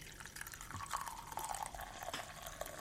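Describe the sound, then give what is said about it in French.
Tea is poured from a pot with a faint, steady liquid trickle and light dripping and splashing, with no talk over it. “Elle verse le thé.”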